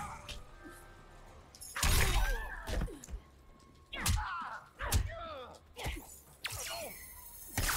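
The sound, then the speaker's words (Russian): Critical blow attack in the fighting video game Mortal Kombat 11: a series of loud punching impacts, swishing whooshes and crunching, shattering hits arriving in uneven bursts, with faint low game background between them. “О, я пытаюсь хоть какие-то приемы сделать. Критический удар.”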